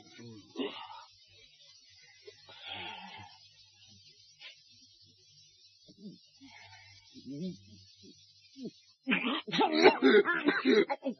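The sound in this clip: Coughing from a tickle in the throat: a short burst of several harsh, rapid coughs near the end, following quieter muffled vocal sounds and faint talk.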